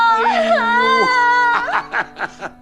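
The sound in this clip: A girl cries, first in a long wavering wail, then in a few short, sobbing, gasping bursts toward the end.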